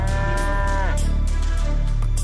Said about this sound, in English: So the milky myth is a black and white dairy cow black with white spots or white with black spots?